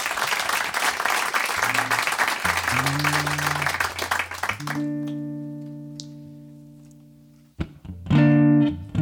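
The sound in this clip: An audience applauds a live music act with dense, continuous clapping for about five seconds over low sustained instrument tones. The clapping then stops while a held note rings on, and further playing enters near the end.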